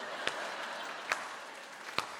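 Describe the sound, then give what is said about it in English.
An audience gives a slow clap: three sharp, evenly spaced claps a little under a second apart, faint against a constant soft hiss. “Let's just take a moment and slow clap John.”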